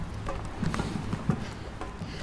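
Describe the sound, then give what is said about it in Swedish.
Drums playing beside the route of the Göteborgsvarvet running race: a few irregular, punchy beats standing out from a steady wash of outdoor noise. “Ah, lite trummor.”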